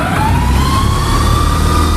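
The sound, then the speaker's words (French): Air compressor of a 1974 electric locomotive starting up in the cab after the pantograph is raised: a loud, steady mechanical drone with a continuous whine that creeps slightly upward in pitch. “Je vais pouvoir monter le pantographe, et là, je mets en route le compresseur.”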